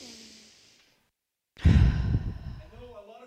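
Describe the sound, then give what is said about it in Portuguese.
A deep breath during a pastor's guided breathing moment: a soft, faint inhale is followed after a pause by a long, loud, breathy exhale that fades out slowly. “Vamos respirar bem fundo.”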